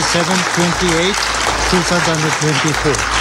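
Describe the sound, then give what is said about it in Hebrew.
Applause fills the UN Security Council chamber after the vote adopting a resolution. The clapping is steady and continuous beneath a speaking voice. “מחיאות הכפיים האלו, מחיאות כפיים של צביעות זועקת לשמיים, הן מה שנשמע אתמול במועצת הביטחון של האום”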